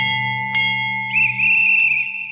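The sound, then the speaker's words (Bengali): A train station bell gives a single sweet ting, then a guard's whistle blows a sustained, shrill, slightly trilling tone over a steady low drone. “টিং টিং করে মিষ্টি ঘন্টা বাজতেই guard সাহেব whistle দিয়ে গাড়ি ছাড়া সংকেত দিলেন”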